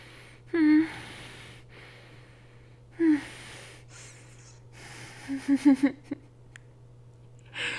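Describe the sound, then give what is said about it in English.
Heavy breathing from a person catching their breath: a few sharp voiced gasps separated by pauses, then a quick cluster of short panting breaths, over a low steady hum. “Let me just bury my face in your neck for a second. I'm gonna catch my breath.”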